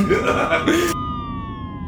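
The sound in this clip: An ambulance siren sounds as a steady, piercing tone that slowly drops in pitch. A noisy, voice-like burst sits over its first half, then the siren carries on alone.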